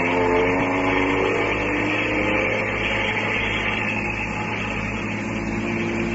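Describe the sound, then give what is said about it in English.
Car engine running as the car drives uphill: a steady, low rumbling drone with a constant hum that stays even in level, with no talk. “Start the car.”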